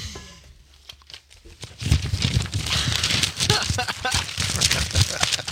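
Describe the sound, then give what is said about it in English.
Pages of an old history book being handled roughly: a loud, continuous crinkling and tearing rustle of paper with scattered sharp crackles. “I think you're just kind of tearing the book apart at this point.”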